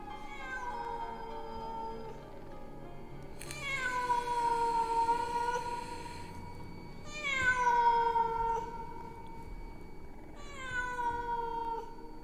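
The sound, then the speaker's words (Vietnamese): A wild cat yowling, drawn-out wailing cries with rich harmonics repeated at steady intervals. Three prominent yowls each sweep down in pitch and then hold, with a fainter cry before them. “cảm giác như có tiếng con mèo hoang, nó cứ kêu gào ở bên tai”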